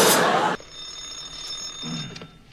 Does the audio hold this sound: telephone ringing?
yes